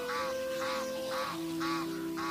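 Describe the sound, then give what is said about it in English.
Birds call repeatedly on the Masai Mara savanna. Five faint, harsh calls come at an even rhythm over a steady low tonal hum. “In the Masai Mara, the air is filled with the melodies of some of Africa's most iconic and fascinating birds”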